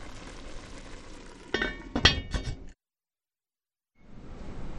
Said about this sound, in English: I just want to stir it periodically, make sure it's not sticky, and I'm just going to turn it down just a tad so that it doesn't cook too fast.